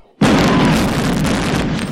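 A gunshot from a hidden gun in a film hits with an abrupt, loud onset and carries on as a dense, roaring blast to the end.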